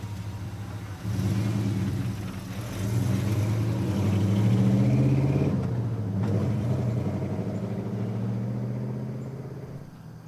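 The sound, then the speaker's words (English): A car engine rumbling as it drives away, rising in strength after the first second, holding a steady mid-pitched drone, then slowly fading toward the end. No voices are heard. “With a final somber head shake, Hank drove away.”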